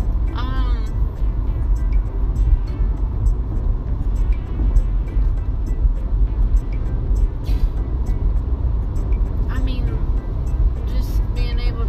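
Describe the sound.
A car cabin carries a constant low rumble of engine and road noise while driving, with people talking steadily over the drone.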